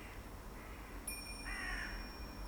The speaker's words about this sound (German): Links von dir ist ein Feld und darüber kreisen Vögel.